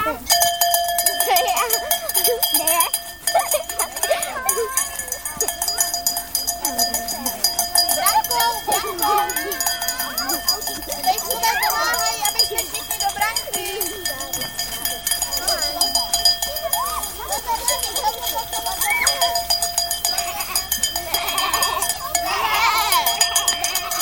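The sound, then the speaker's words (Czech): Bells clank and jingle almost without pause during a children's game of a sheep flock guarded by dogs and following a shepherd, with children's voices and talk throughout. “se tam pak ozývají ty zvonce”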